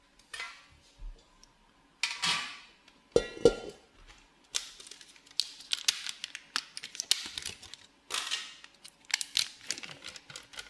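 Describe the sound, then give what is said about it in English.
Emborg cream cheese, 1 kg for a burnt cheesecake, goes into a stand mixer bowl: a few bursts of crinkling, scraping and light clinks, moderately loud and without talk. “So I just got Emborg cream cheese, which is pretty good as well. So just going to put that all in the bowl of a stand mixer.”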